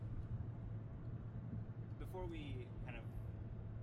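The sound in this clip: Steady low engine and road rumble inside a moving car. The faint, continuous hum runs throughout, with a voice talking briefly partway through.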